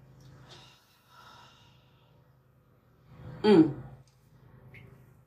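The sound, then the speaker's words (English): A deep inhale through the nostrils into the belly during a guided breathing exercise. It comes as one loud, rushing nasal intake lasting under a second, with quiet low hum before and after. “Second breath, inhale through the nostrils, fill up that belly.”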